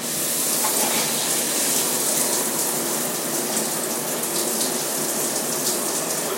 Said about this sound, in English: Taking a shower.